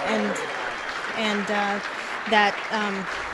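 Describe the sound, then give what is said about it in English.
Applause at Lugar campaign headquarters on an election night, a steady bed of clapping running beneath a person talking for the full few seconds. “Yeah, and we're hearing the applause there at Lugar headquarters.”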